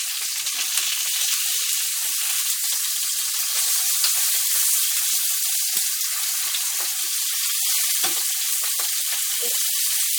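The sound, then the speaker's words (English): Duck breast frying in a pan with the fat spitting, a loud, constant high-pitched sizzle with scattered sharp crackles and pops running evenly throughout. “I'm going to try and turn these over, but they're spitting somewhat, so we will have to just give it a shot and see what, if anything, we can do.”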